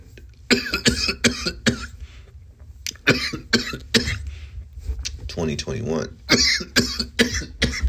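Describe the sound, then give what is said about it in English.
Someone coughs after drawing on a vape pen, a fit of many harsh, short hacks in irregular bursts with some throat clearing mixed in. Talk runs alongside the coughing. “This pen made me cough, man.”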